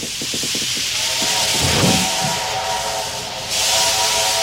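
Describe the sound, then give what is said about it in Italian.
Steam train: a few quick rhythmic chuffs open over a continuous loud hiss of steam, then a steady whistle tone sounds for a couple of seconds before the hiss surges again. “Questo è il treno a vapore dell'Ombelico del Mondo.”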